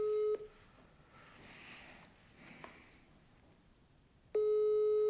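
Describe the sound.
Telephone ringback tone of an outgoing call: a steady, mid-pitched tone cuts off just after the start, leaves a stretch of quiet line hiss, then sounds again near the end.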